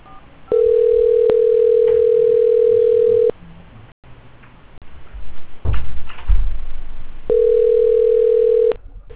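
A telephone tone sounds while a call is being transferred: two long, steady, flat mid-pitched tones, the first about three seconds and the second shorter, separated by a stretch of faint rustling and low thumps.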